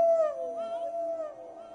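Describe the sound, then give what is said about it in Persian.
A wolf-like howl rings out as one long, sustained, wavering tone that holds a fairly steady pitch and sags slightly toward the end. “من گشنم، من گشنم، من گشنم. روز سر اومد، زوزه بکنی، ماه در اومد”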